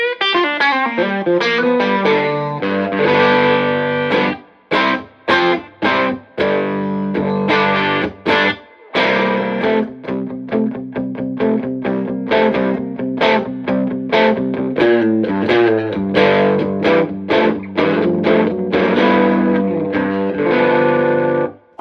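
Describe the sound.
Electric guitar played through a fuzz distortion pedal: loud, thick, buzzing tone in fast bluesy note runs that go on almost without a break, with a few short pauses between phrases.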